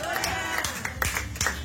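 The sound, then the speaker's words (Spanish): Church audience offering applause with rhythmic clapping, sharp claps repeating at a steady beat amid murmuring voices. “Tengo una ofrenda de palmas. ¡A su nombre!”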